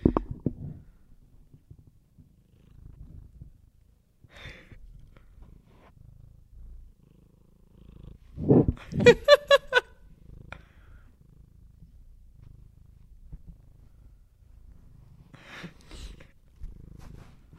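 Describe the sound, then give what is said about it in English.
A cat purring as a faint, low rumble that runs throughout, with a few brief, louder noises midway. “You can hear him purring”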